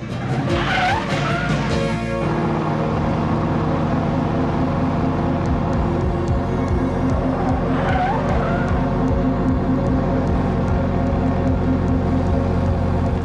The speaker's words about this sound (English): In hot pursuit behind them in the car are Dwayne and Moustache. The kids cycle through the busy streets of Australia and make their way down a very narrow pavement with buildings on either side.